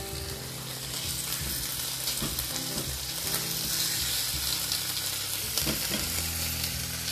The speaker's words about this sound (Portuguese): Agora eu vou fritar um ovo.